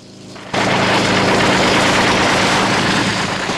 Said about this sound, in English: The guard leading Tiffany to the brig is gunned down by a helicopter.